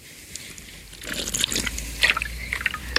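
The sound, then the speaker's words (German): A sip of water is taken: faint liquid sloshing, then a few small wet clicks and gulping sounds that grow slightly louder toward the end. “Oh, Entschuldigung, mach mal einen Schluck Wasser.”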